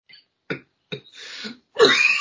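Coughing from someone whose throat has gone rough after laughing: a few short, harsh bursts separated by quiet gaps, then a longer raspy cough that ends the sequence.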